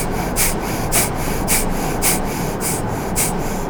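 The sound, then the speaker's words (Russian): Rapid, forceful breaths through the left nostril with the right nostril held closed during an active kriya breathing warm-up: sharp, hissing nasal puffs repeat at a steady quick rhythm, about two per second, over a continuous noisy background. “Правую ноздрю закрыли, левой дышим, продолжаем. Здесь активнее, живот включаем.”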